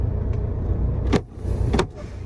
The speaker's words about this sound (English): that's me releasing the parking brakes, okay, guys? So, not engaging the parking brakes.